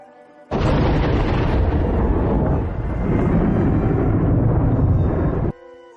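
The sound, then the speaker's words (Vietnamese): A thunder crash as lightning strikes a long spear: a sudden, loud, broad roar that bursts in, holds steady and rumbling for about five seconds, then cuts off abruptly. “Một tiếng sấm sét vang rền từ trên trời giáng xuống, đánh vào trường thương.”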